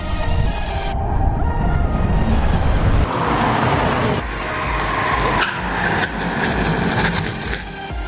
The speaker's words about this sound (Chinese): 然后呢，我们开始做制动，看看它到底需要多长时间才能够完全减到零。